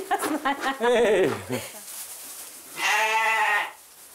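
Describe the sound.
A young bottle-fed lamb bleats twice, with a pause between the two wavering, nasal cries. Both calls are loud and stand alone.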